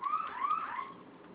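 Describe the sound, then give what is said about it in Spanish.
A fire alarm set off from a security keypad gives a warbling electronic wail whose pitch sweeps up and down, steady and moderately quiet, with no voices. “Presione ambas teclas, por favor, durante 5 segundos. Se le va a activar la alarma de fuego.”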